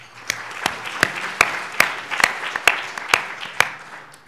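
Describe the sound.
Scattered claps from a conference audience welcoming a speaker in Singapore: sharp, separate hits in a loose, uneven rhythm, not a dense roar.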